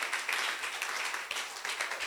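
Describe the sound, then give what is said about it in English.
Church audience clapping, a dense, steady patter of many hands with a slightly rhythmic pulse, continuing evenly throughout at a moderate level. “You should clap better. Let your clapping be.”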